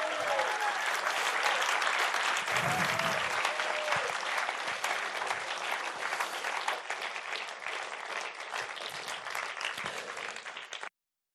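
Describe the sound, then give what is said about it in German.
A big round of applause from an audience at a live event honours a guest. The dense clapping holds strong for about eleven seconds, easing slightly before it cuts off abruptly. “Lass uns doch nochmal Chuck einen riesigen Applaus geben.”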